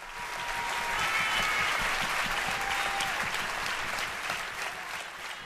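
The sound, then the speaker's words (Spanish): Audience applause at a live concert: dense, steady clapping from a large crowd that stays loud through the whole stretch, with no voices over it. “y la gente sigue aplaudiendo”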